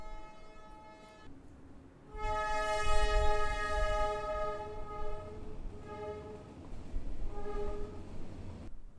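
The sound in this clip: A passing train sounds its horn: a sustained, steady multi-tone blast over a deep rolling rumble of rail cars. The horn grows louder after a quieter start, dips briefly and returns, with the rumble continuing throughout.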